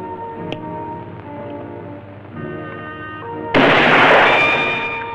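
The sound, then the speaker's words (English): A gunshot as a bullet glances off metal and leaves a dent. A single loud, sharp blast breaks in over a sustained tonal musical backdrop, then decays over the final second or so. “The bullet glances off the metal, leaving a dent. He aims again.”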